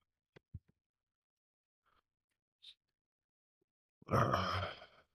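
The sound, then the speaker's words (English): Heavy breathing through congested sinuses, one long, rough, snuffling breath near the end, preceded by a few faint clicks and small sounds in near silence. “Sinuses trying to breathe here. Trying not to do it in the microphone.”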